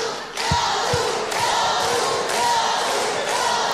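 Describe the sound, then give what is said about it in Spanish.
A live audience in Punta Arenas cheers and shouts loudly as one sustained, noisy roar, with a couple of dull thumps near the start. “Por favor, escucha tu hermoso público.”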